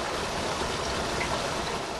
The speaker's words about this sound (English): Mashek Creek is a stream that flows through eastern Kewaunee County and into Lake Michigan.